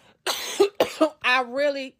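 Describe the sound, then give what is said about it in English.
A few harsh, rapid coughs in quick succession, then a drawn-out voiced, throaty sound. “I'm sorry, guys. I can't record without coughing.”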